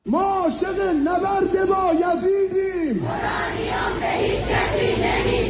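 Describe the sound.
A crowd at a pro-regime rally in Iran chants a slogan in unison in loud, rhythmic bursts, then breaks into a broad roar of mixed shouting.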